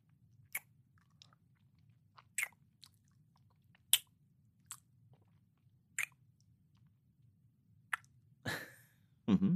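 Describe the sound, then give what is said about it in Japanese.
A person eating and chewing food: soft, faint chewing, biting and smacking clicks scattered over a low hum, with slightly louder, rougher rustling near the end. “本当に幸せそうに食うよな。”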